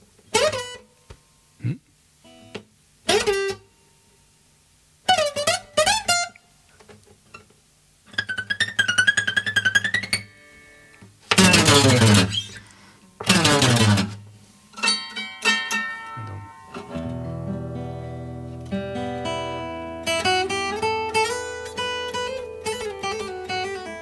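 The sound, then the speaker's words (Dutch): A guitar being tried out to see if it still works: short bursts of bright ringing notes separated by pauses, building to longer sustained wavering tones that carry to the end. “En dan pak ik mijn gitaar. Even kijken of die het nog doet.”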